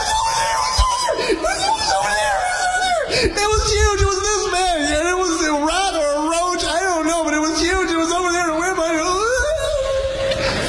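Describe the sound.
A woman screaming in one long, high-pitched, wavering cry that trembles and warbles in pitch, sustained loudly for about ten seconds with a brief break near the start.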